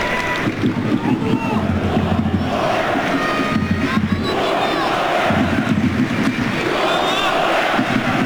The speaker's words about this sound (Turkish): Alkışı da oluyor.